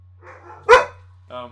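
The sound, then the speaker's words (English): A dog gives one loud, sharp bark amid quiet talking, with a shorter, softer burst of sound following a moment later. “There's gonna be a spate of barking.”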